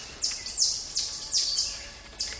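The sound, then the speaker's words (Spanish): High, bird-like chirping calls from a group of tamarin monkeys: a quick series of short, sharply descending whistles repeating about every half second, clear over faint background hiss. “Posiblemente sea el grupo así o sea otro grupo de tití. Me impresiona que parece un pajarito. Sí, parece un ave.”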